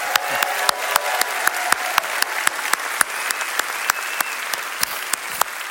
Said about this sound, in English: Let's give the Lord a big hand today.